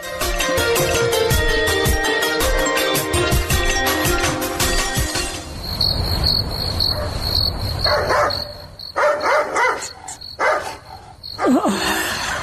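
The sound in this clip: Dogs bark at night while crickets chirp steadily throughout. A few loud, sharp barks come in the second half over the insect chorus.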